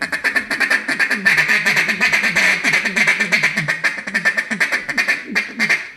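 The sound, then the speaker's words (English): Handheld duck call imitating a raft of ducks, a long run of many rapid, rattling quacks in a steady bouncing rhythm, loud and alone. “Sounds like a raft of ducks. Sounds like a raft of ducks in the trees.”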